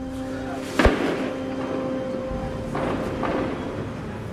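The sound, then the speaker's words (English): A gunshot fired at the bottom of a hill in Adjamé, heard while driving up the hill: one sharp, loud crack, then a few fainter thumps over continuous vehicle rumble. “Just driving up the hill into Adjamé, and there's been some shooting at the bottom of the hill.”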